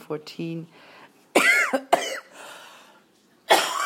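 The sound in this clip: A few harsh, explosive coughs from one person, with throat clearing. The loud raspy bursts are separated by quieter pauses.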